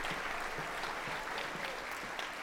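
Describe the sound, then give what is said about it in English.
Enthusiastic applause from a standing concert audience for the Juilliard String Quartet, dense, continuous clapping heard faintly throughout. “There's some of the most seriously enthusiastic applause we've ever heard here at the Lead Center. An appreciative audience on their feet now for the Juilliard String Quartet.”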